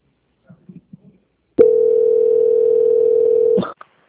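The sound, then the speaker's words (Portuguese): Steady telephone line tone during a call transfer, a single unbroken beep of about two seconds, preceded by a few faint clicks and ending with a short click. “peço que aguarde em linha que vou transferir o contato para o controle de qualidade”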